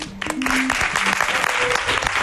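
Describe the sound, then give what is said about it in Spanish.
An audience applauds percussion players and sound crew at a live concert-style radio event. Thick, lively clapping runs throughout at a strong, steady level, with a few shouts and voices rising over it. “Un aplauso también, por favor, para ellos.”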